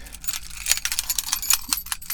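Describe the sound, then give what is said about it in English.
Car keys jiggled by someone sitting in a car make a quiet, continuous run of many light metallic clinks and jingles with an irregular rhythm. “All I can do is jiggle my keys because I'm sitting in my car.”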